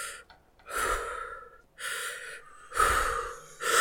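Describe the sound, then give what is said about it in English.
A person imitates scuba diver breathing: a few loud, hissy, rasping breaths in a steady rhythm, each lasting about a second, with short gaps between and no talk. “Do scuba diver breathing. It's like the two full breaths and then the third breath in.”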